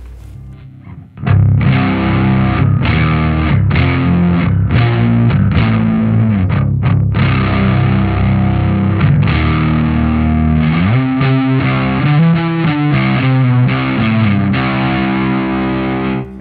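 Heavily distorted stringed instrument in unison C-G-C tuning, notes fretted with the thumb and second finger, kicks in after a short pause with loud sustained chords, then shifts to fast repeated notes near the end.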